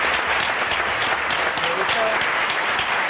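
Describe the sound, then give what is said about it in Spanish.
Audience applause for a panel guest on a comedy panel show: dense, steady clapping that holds at an even loudness for the whole three seconds. “Un aplauso para él también.”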